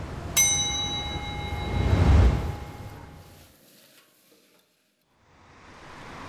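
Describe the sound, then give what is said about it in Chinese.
Pork kidney and tripe are stir-fried in a hot wok with plenty of oil over a fierce flame. A metallic clang rings out first, then a rushing sizzle and scraping swell loudly and die away to near silence before a faint hiss returns. “娇嫩的腰花与脆爽的黄喉在锅热油宽火旺下翻炒几十秒即可，如同邵阳人骨子里的火爆。 刚才来爆腰花，”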